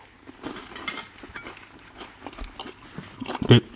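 Someone chews a larch bolete mushroom, with soft, irregular wet crunches and a louder bite near the end.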